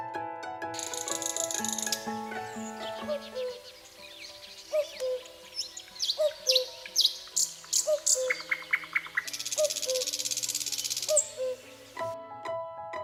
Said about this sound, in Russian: Кукушка говорит ку-ку. Ку-ку, ку-ку, ку-ку, ку-ку.